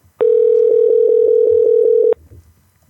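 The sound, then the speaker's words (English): An outgoing phone call rings while waiting for pickup: one loud, steady mid-pitched tone holds for about two seconds, then cuts off abruptly, leaving faint low noise. “Pick up, Austin. Pick up.”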